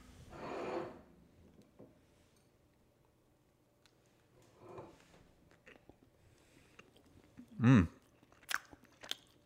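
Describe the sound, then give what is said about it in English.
Quiet chewing and crunching of a cookie: a few scattered soft bites and munching sounds with near silence between them, then one louder short crunch near the end. “Now I'm gonna try one of these cookies and let you know what I think.”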